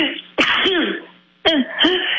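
Two abrupt, loud sneeze-like bursts about a second apart, each opening with a sharp noisy blast and trailing into a short voiced, falling tail, with quiet background between them.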